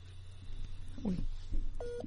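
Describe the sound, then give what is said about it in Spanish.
Telephone dialing tones as a dropped call is redialed during a radio program: a brief, steady beep sounds near the end over a low hum and faint background murmur. “se nos ha caído la llamada, estamos tratando de reconectar.”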